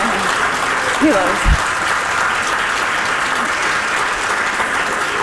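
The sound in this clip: Audience applause for special guests at a live show honoring a Palestinian writer: a sustained, even wash of clapping, with a brief vocal sound rising over it early on.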